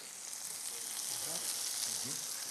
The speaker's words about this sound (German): Und jetzt drehe ich das kurz um und brate den Parmesankäse mit.